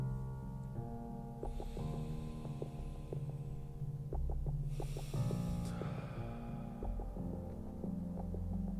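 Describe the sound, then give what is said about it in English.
A person breathes deeply, in through the nose and out through the mouth. A hissing inhale is followed later by a stronger, louder exhale, over a steady low hum. “take a deep breath with me. Let's do it right now. In through the nose, out through the mouth.”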